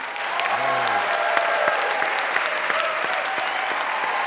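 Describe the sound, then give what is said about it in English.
Audience applause welcoming a guest onto a stage, a dense, steady wash of many hands clapping that holds at an even, loud level from start to finish. “To help with that demonstrably true part, would you please welcome our real-time fact checker, Trisha Bobita.”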